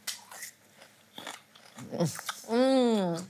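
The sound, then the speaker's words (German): Raw rhubarb dipped in sugar gives a brief crunchy bite and chewing, preceded by talk and followed by a sustained voiced sound. “Kennst du rohen Rhabarber in Zucker tunken? Haben wir irgendwo Zucker? Ja, hier. Dann können wir ja mal... Eine Zimtstange drin. Rhabarber? Ja. Roh? Ist sauer, oder? Trotz Zucker?”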